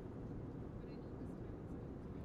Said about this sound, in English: it's because we are actually 10,000 feet in the air on our way back from the SEEK conference in Salt Lake City, Utah, back to Pittsburgh.